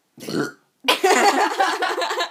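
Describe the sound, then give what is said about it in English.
A person lets out a long, loud, croaky burp lasting over a second, preceded by a brief vocal sound and a short pause. “Get ready for a burp.”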